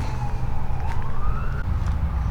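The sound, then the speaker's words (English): Emergency vehicle siren near a boardwalk: a single wailing tone rises slowly in pitch over a steady low traffic rumble, then cuts off before the end. “emergency vehicles to the rescue.”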